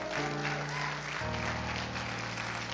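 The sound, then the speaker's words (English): A church audience applauds with hand claps, a dense, continuous wash of clapping that stays steady and fairly loud throughout, with low sustained musical tones underneath that shift down to a new note partway through. “Let's give a big hand clap to our pastor,”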